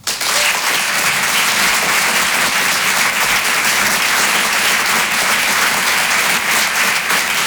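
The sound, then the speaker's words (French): Loud audience applause at a stand-up comedy and song show as a performer comes on stage: a thick, continuous wash of clapping that starts abruptly and holds a constant, full level to the end. “Et je vous demande de faire du bruit et de l'encourager très chaleureusement.”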